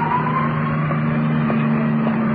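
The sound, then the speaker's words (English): Steady, low engine drone of an ambulance driving away in traffic, a constant hum with a faint higher whine and no clear siren. “ambulance, disappearing in the traffic.”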